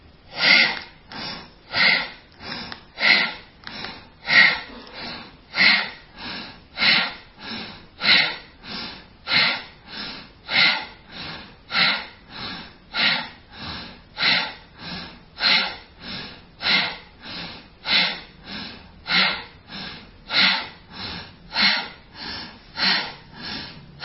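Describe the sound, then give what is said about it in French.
Bhastrika bellows breathing from a yoga exercise: a long, even series of forceful, sharp nasal breaths, about one per second. Each is a harsh, airy rush, and the series goes on steadily for over twenty seconds without talking. “Et ensuite, pour recommencer la série, vous allez directement refaire le bhastrika dès la première expiration.”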